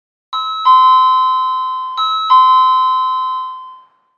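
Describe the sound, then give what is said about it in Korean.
A two-tone electronic doorbell chime at an apartment rings twice. Each ring is a clear, bright ding-dong pair of tones that rings out and fades, and the second press follows shortly after the first. “초인종이 울렸다.”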